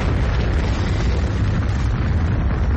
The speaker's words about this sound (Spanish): una bomba explota bajo el coche envolviéndolo en una enorme bola de fuego